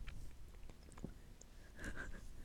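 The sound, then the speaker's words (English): Close, soft gum chewing for ASMR, with quiet wet smacks and clicks of the mouth scattered through a faint, hushed stretch. “Oh, gum. Ready? I'm gonna try to smack.”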